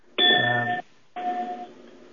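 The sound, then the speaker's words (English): A bell-like electronic chime rings twice: two steady, clear tones, each lasting about half a second, with the second a little softer, separated by a brief silence. “I'm not sure what that bell was, folks”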